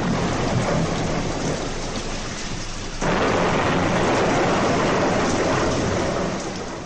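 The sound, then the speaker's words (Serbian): A thunderstorm with heavy rain: a dense, continuous roar of pouring rain mixed with rumbling thunder. The whole wash swells louder partway through, holds steady, then eases slightly at the end. “Jedne večeri dođe do strašne nepogode.”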